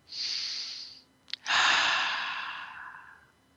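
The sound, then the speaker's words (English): A group takes deep breaths during a breathing exercise: a long, airy breath, a brief sharp catch of air, then a longer, louder breath that slowly fades out. “So I want you to take a few deep breaths.”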